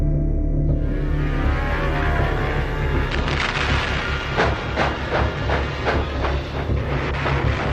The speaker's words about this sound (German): Ein Zug fährt durch Deutschland.